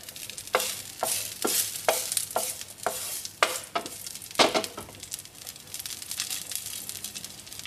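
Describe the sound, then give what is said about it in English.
Chinese sausage (lap cheong) sizzles in oil in a pan over medium-high heat, a steady fry punctuated by many sharp crackling spatters in quick succession, with no voices. “I'm going to add around a tablespoon, 2 tablespoons of oil. Okay, and I'm going to add the lap cheong in. It'll spatter a bit, so be careful.”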